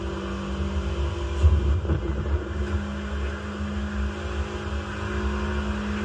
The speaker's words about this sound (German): Aber wie schnell wir einfach fahren. Äh, Real Life könnte man also die VW GTI nicht so heftig auftun, dass er 340 fährt.